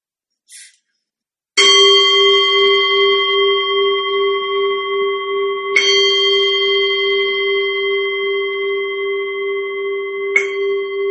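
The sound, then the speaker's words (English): A meditation bell rung three times to open a Buddhist metta meditation session. Each strike gives a bright, clear tone that rings on steadily until the next one, and a brief faint tap comes before the first strike. “So if you're ready right now, I will ring the bell.”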